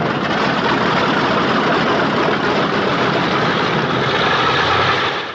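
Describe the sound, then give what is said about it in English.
Engine drone of a Mitchell bomber as it turns onto the runway. A steady, heavy low rumble holds at an even level, then fades away at the very end. “The plane turns onto the runway.”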